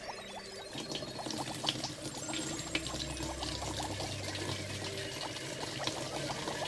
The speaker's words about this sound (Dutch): Dan giet ik de most eh, nu eens in de stookketel.